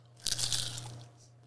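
A crisp crunch as someone bites into walnut baklava layered with phyllo pastry. One brief burst of crackly texture, fairly faint, sits over a low steady hum.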